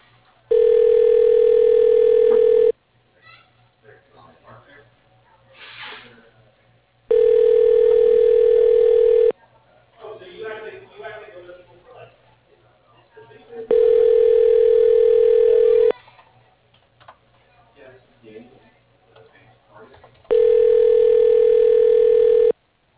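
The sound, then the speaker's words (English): A telephone rings out while a call is being transferred: four long, steady ring tones at regular intervals, each about two seconds, with only faint background noise between them. “Please hold while your call is being transferred to Kevin Farrell.”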